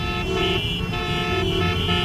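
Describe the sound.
Car horns honk as the first cars pull up to twelve petrol pumps during a price-cut event at a filling station. Several loud, sustained horn tones overlap continuously throughout.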